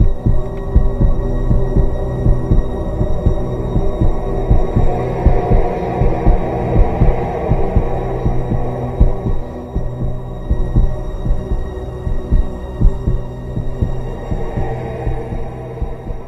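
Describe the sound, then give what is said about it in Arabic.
Racing heartbeat sound effect, a fast, steady run of many deep throbbing thumps over a low continuous hum, loud and unbroken for the whole stretch with no voices. “كأن دي إشارة لأن بدأ قلبي، دقات قلبي فعلا تزيد وتتسارع بسرعة جدا.”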